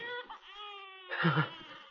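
A plaintive, muffled wail of a newborn baby boy: a faint, brief harmonic cry that sags slightly in pitch, then a short, rougher breathy burst.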